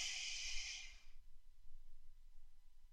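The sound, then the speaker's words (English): One deep breath drawn in during a guided breathing exercise, an airy, hissing rush of air lasting about a second before it fades into near silence. “Once again, on the count of three, taking that deep breath in.”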